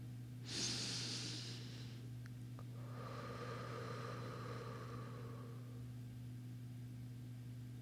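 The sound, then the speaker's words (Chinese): A deep breath, soft and quiet: a sharp airy intake, then a long, slow breathy exhale over a steady low electrical hum. “我能感觉到自己平静了下来，于是又一次深呼吸。”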